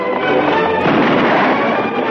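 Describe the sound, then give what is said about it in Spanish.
A volley of rifle fire from dismounted soldiers in formation in a 1954 western film. It comes as one loud, sustained, roaring burst of blasts lasting the whole moment, with no clear gaps between shots. “los soldados desmontan, se colocan en formación y disparan una andanada.”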